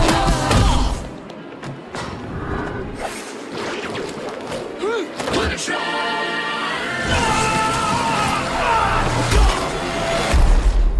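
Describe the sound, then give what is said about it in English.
Trailer audio from the film Atomic Blonde: heavy thuds, whooshes and slams are mixed with music and voices in a dense, loud action montage. “So that is a clip from the trailer of Atomic Blonde.”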